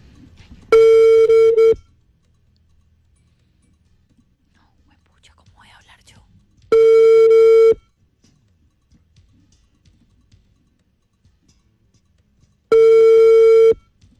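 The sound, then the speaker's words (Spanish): Telephone tones mark a rejected call: three steady, fairly loud single-pitch beeps, each about a second long, spaced several seconds apart, with faint low background noise in the gaps. “Sí. Dios mío, no le ha contestado, ya la rechazó.”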